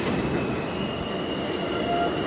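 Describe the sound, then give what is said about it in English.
A C subway train arrives at a station: a loud, steady rail rumble carries a sustained high wheel squeal throughout, with no talk. “All right, we got an incoming C train. This is my train.”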